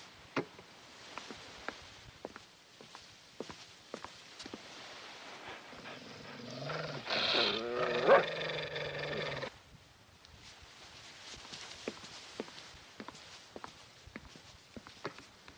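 Guard dogs vocalize around a car whose driver cannot get out, giving a loud stretch of wavering, harmonic whines or growls midway, amid scattered sharp footstep-like taps and low background noise, with no talk.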